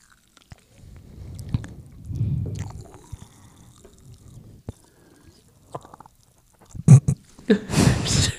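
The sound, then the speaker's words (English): Popping candy crackling in the mouth: many sharp, scattered crackles and tiny pops over soft wet mouth and chewing sounds, with louder clustered bursts toward the end. “That was the sparkles. That was like... It's like Pop Rocks. Listen, everybody. Real quiet.”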